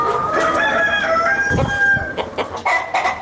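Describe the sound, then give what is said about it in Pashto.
Chickens cluck and a rooster crows on a poultry farm of roughly four hundred birds in the Ghaibi Kalandar area of Ghazni. A sustained, harmonic crow rings out early, followed by a few busy bursts of clucking and squawks. “دا غزنی شار په غیبی کلندر سیمه کې د لږ ډیر څلور سو چرګو چرګانو فارم.”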